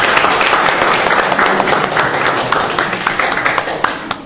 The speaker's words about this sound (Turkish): Alkış alalım. Alkışlarımızı da alalım.